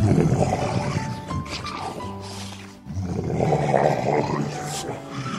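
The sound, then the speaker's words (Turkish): A lion roaring in pain: deep, growling roars that swell in two loud surges with a short lull between them, layered over a dense rumbling background. “Aslan acıdan kükreyip yeri göğü inletmeye başlamış.”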